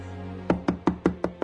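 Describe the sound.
Knuckles rap on a wooden apartment door: six firm, evenly spaced knocks in quick succession, each a sharp hollow thud, following a moment of quiet.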